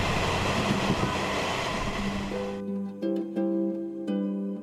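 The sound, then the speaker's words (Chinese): A South-Link Line ordinary train approaches Taitung station with a loud, continuous rolling rumble of wheels on track, which then cuts to a few sustained musical tones. “经过两个小时的搭乘哦，我们即将抵达台东车站了。”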